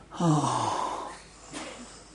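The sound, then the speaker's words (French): A person blows out hard through the mouth: a strong, slightly voiced puff of breath, then a softer second exhale a moment later. “Quand je me regarde moi-même et que j'aime, je suis obligé de souffler très fort.”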